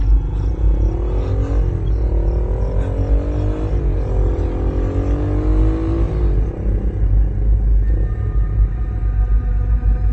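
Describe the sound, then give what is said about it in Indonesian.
A car pulls away from a railway crossing, its engine pitch climbing in three successive rises as it accelerates, then easing into a steady, loud rumble. “Setelah palang terbuka, aku langsung tancap gas melanjutkan perjalananku pulang.”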